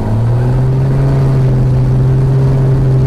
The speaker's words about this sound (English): We continue to let it idle, and then he throttles it up, and you'll know. Once I'm in the center line, I get a full throttle. You'll hear it.